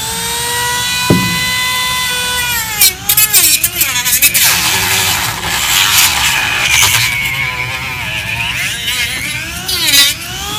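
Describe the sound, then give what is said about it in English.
Dremel rotary tool cutting into a plastic toy figure, a loud, high, steady whine rich in overtones whose pitch dips and recovers repeatedly as the bit bites into the material. “Well, mechanism's out. So there we go. I've cut Groot off at the stump.”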